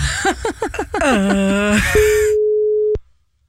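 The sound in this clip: A telephone ringback tone sounds while a call is being placed, one steady mid-pitched tone lasting about a second before cutting off sharply, preceded by a short stretch of voice.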